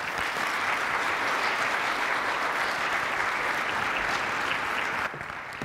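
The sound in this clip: An audience at a church service applauds to welcome a bishop to the front: steady, dense clapping from many hands that holds at an even level for about five seconds, then drops away to a faint patter.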